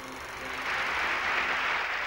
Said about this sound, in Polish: Siódmy zjazd PZPR, grudzień 75 roku. Serdeczne powitania, gorące oklaski.